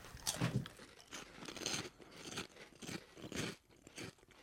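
Crunching and chewing of flaming hot Funyun onion-flavored snacks: many loud, crisp bites and grinding chews follow one another in uneven bursts, with no talking.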